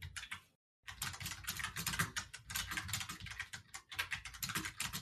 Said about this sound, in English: That's a lot of ominous typing.